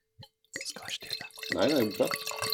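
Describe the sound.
Red wine pours into a glass, a soft liquid gurgle and splash beneath people talking.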